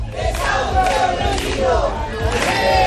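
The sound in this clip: Housing protesters in A Coruña chant together in a short, loud burst of massed voices that repeat a rhythmic slogan.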